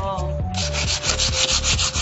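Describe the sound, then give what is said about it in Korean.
Sandpaper scrapes in many quick, rhythmic back-and-forth strokes across a painted surface being roughened before repainting, producing a steady, gritty hiss. “어, 사포로 사포질 해야 돼.”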